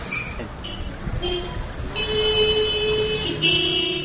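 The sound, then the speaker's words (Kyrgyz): Car horns honk in a traffic jam on the narrow streets of a small town with no traffic lights. Several horn tones sound over a rumble of engines and street noise, including one long sustained blast and overlapping toots near the end. “25 000 калкы бар чакан шаар экенине карабай, Баткенде кээде мынтип жол тыгындары болуп калат.”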